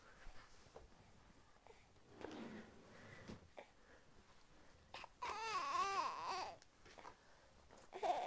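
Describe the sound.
A young child fusses and cries at home, faint whimpers and sniffles building to one longer, wavering cry in the second half before fading again.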